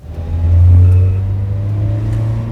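A car drives away from a mortuary, its engine revving into a loud, steady low drone that swells early and then holds, with no voices.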